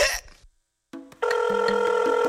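A telephone rings after a short silence and a couple of brief clicks: a bright, steady electronic ring with a fast pulsing texture that carries on to the end.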